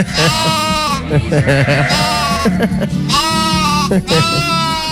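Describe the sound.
A person bleats like a sheep, playfully imitating a little lamb in a few wavering, nasal bleats that run almost without a break and stay loud throughout.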